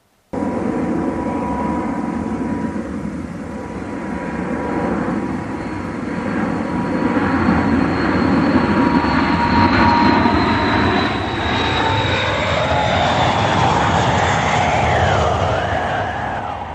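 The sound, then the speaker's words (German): An airplane in flight gives a steady, loud engine roar that fills the whole stretch, with a thin high whine running over the broad rumble. “Der nun farbige Stoff fliegt zurück nach Indien.”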